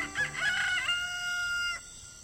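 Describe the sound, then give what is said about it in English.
A rooster crows at dawn in Costa Rica, a single drawn-out call that settles into a steady high pitch before cutting off, fairly faint. “As in many places in the world, people are waking to the crowing of roosters.”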